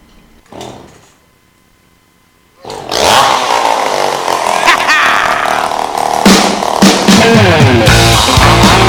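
A chainsaw revs as a solo in a rock performance. A brief quiet stretch gives way to a loud, sustained roar that surges and dips as the throttle is worked.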